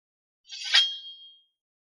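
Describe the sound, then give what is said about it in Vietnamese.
A bright metallic ring of a sword: one sharp clang that leaves a high, clear sustained tone, fading out over about a second. “Tiếng kiếm vang trong vắt, kinh động đến hắn.”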